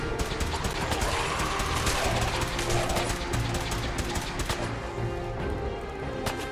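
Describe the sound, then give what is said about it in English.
Gunfire in the Fallout video game by Bethesda, aimed at slow-moving ghouls: many sharp, rapid shots in quick bursts, loud and crackling, with brief pauses between volleys. “Alright, another quick reload. This is a slow moving ghoul. I can probably get a headshot on him. No, it took me a couple of shots, but that's okay.”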